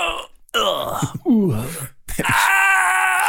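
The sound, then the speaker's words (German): A voice imitates the suppressed loud screams of old computer games: a faint start, then a few strained, groaning wails separated by short gaps, the last held long and steady. “das sind ja die Geräusche, die früher in Computerspielen immer gemacht wurden, diese unterdrückten lauten Schreie. Sie sollten laut klingen.”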